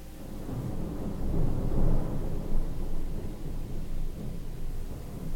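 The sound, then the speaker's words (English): Thunder from a thunderstorm outside, a continuous low rolling rumble that swells and ebbs without a clear single crack, holding a deep, noisy body throughout with no voices. “There's a thunderstorm going on outside, so you might hear some thunder in the background.”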